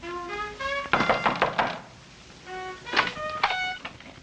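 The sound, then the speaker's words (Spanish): Knocking on a door comes in two short clusters of soft, dull raps, with sustained tonal musical notes sounding before and between them. “se detiene frente a una puerta y llama”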